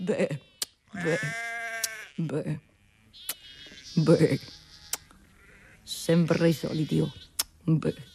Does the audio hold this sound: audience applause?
no